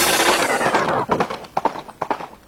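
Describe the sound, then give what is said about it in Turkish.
Galloping horse hooves at a horse race. A broad rush of noise gives way to many quick, irregular thudding hoofbeats in a driving rhythm. “At yarışları heyecanı Radyo Spor'da.”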